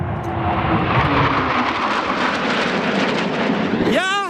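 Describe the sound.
An aircraft makes a fast, low pass over the airport during its 100-year anniversary festival in Salzburg, a loud and steady roaring rush that fills the whole clip, with a voice starting at the very end.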